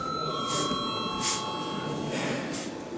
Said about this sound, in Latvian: Nav kvoruma. Tātad lūdzu vēlreiz zvanu.